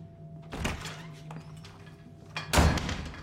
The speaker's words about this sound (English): She heads to the door.